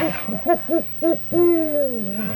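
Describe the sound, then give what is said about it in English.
A horned owl hoots: a few short, evenly spaced low hoots, then one long drawn-out hoot that slowly falls in pitch, with no talking. “well, that's a horn owl. It is. Yeah, he's a great old straight out old owl.”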